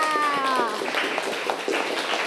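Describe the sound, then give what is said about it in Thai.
Schoolchildren in a classroom clap for themselves, many hands patting in a dense, fairly soft patter that runs throughout, with a woman's voice briefly heard at the start. “แต่งให้ตรงกับคณะกาพย์ยานี11นะคะเด็กๆปรบมือให้กับตัวเองค่ะ”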